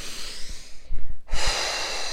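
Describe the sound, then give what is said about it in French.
Slow breaths during a guided relaxation exercise: one long airy inhale, a brief pause, then a long breathy exhale, soft and alone. “Nous inspirons et nous expirons cette douce chaleur dans toute notre tête.”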